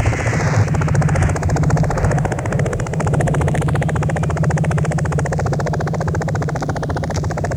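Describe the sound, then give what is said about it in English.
A helicopter's rotor beats in a loud, rapid, steady chop over a deep engine rumble, with a high whine drifting up and down. It runs continuously for about eight seconds without voices. “It's the sound of the choppers.”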